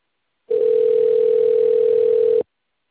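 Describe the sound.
A telephone transfer tone plays during a call: a single steady, mid-pitched electronic tone that holds for about two seconds, then cuts off cleanly.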